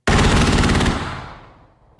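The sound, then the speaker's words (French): Artillery shells are fired at night over the sea during a Taiwanese military exercise on the Kinmen archipelago. One sudden, very loud blast with a rapid rattling texture trails off in a long fading tail, and another blast erupts right at the end. “Au-dessus de la mer, des obus illuminent le ciel noir. Sur la plage, les militaires courent en direction des canons.”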